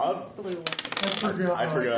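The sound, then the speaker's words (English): Dice clatter as they are rolled during a tabletop role-playing game, a quick burst of sharp clicks and rattles that settles after about half a second. “I thought you weren't using those dice anymore.”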